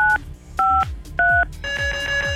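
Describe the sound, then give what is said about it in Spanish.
Telephone keypad dialing tones as the number 953 is keyed in: three short, loud two-note beeps evenly spaced, followed by a longer steady multi-tone signal. “marca 953 ahí en el teléfono para que aquí la computadora haga lo suyo”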